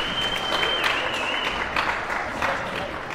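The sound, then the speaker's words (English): Round of applause at a youth darts academy in Sligo, a loud, sustained clatter of many hands clapping, with a thin steady high tone running through the first half. “If you want to give a round of applause”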